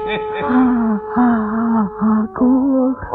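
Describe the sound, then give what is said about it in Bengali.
A person crying, with loud, drawn-out voiced wails and sobs in several bursts separated by brief catches of breath. “ওই দেখো আবার কাঁদে।”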